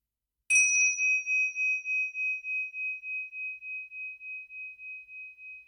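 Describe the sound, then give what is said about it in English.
A single clear strike of a bell marks the end of a meditation. Its high tone rings out alone and fades slowly with a steady, wavering pulse. “When you hear the bell, we can finish.”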